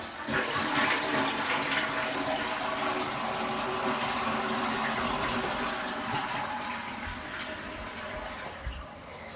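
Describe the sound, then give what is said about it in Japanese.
A toilet being flushed: a loud, continuous rush of gushing water lasting about nine seconds that gradually eases toward the end, with no talking. “ちっちゃすぎて匂いもよくわかりません。流します。”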